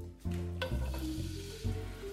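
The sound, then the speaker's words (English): Tempeh tossed in glaze sizzles as it is dropped into hot oil in a frying pan, a quiet, steady crackling hiss with a few brief surges as the pieces land and settle. “I'm just going to give my tempeh a little toss in the glaze. And so it's ready to be dropped into the pan.”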